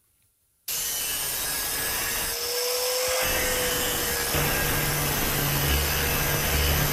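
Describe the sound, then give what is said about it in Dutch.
An angle grinder cuts in abruptly after a short silence and then runs as a continuous, loud, rasping whine with an even, sustained tone to the end. “Het geluid van je jeugd. Ja. Klopt het? Klopt, ja. Ja? Dit is een slijptol. En jij hoorde dit als kind? Ja, elke dag thuis.”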